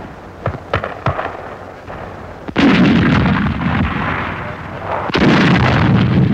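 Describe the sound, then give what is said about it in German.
A captured English artillery gun fires, worked by German paratroopers on heights above Suda Bay. A few lighter sharp reports come first, then two heavy booming shots, each followed by a long rumbling roar. “Ein erbeutetes englisches Geschütz.”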